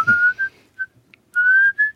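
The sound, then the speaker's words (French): A person whistles a few clear, fairly loud notes with no talk: a longer tone, a short chirp, then another long tone and a brief final one, each gliding slightly upward in pitch. “Là, vous êtes en train de siffler, là.”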